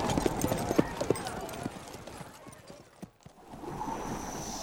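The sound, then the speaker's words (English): Hooves of horses clip-clopping along a trail: irregular, fairly quiet clops, a few sharper than the rest, over a low background rumble. “they picked up their horses at the livery, and the four of them were on the trail toward Pueblo”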